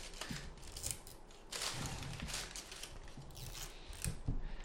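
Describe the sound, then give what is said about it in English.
Plastic seal being peeled off a gin bottle cap, a continuous scratchy crinkling and rustling with a few louder crackly bursts, heard alone. “And it looks like there's a thing that needs to be peeled off. Oh, I hate these. And it's very hard to peel them off without actually seeing the bottle cap or the bottle. I'm doing my best.”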